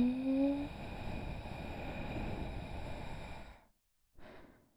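During a guided breathing exercise, a person breathes out slowly in a long, soft, airy exhale lasting a few seconds. It cuts to a brief silence before a short breath sound.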